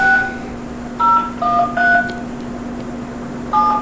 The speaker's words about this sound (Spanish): Déjeme marcar